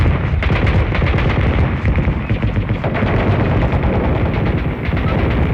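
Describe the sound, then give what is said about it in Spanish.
Artillery fire in an audio drama, a loud, dense barrage of rapid booming shots that rolls on without pause. “el primer disparo de la artillería cayó sobre Hyde Park”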